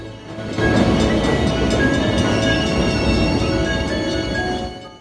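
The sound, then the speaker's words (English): A boxcar train rumbles into a station as it slows to a halt, with a loud, steady rolling roar and thin metallic squealing tones over it. The noise eases slightly toward the end. “The girl looks out of the open side of the boxcar and waits for the train to come to a halt.”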